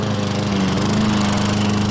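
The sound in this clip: A garden lawn mower engine runs with a loud, steady, buzzing drone at an even level throughout, and no voices are heard.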